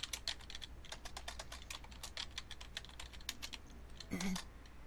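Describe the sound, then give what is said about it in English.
Typing a message on a computer keyboard: a fast, steady run of many quiet key clicks continuing throughout. “So I'm gonna type a welcome message into the chat room.”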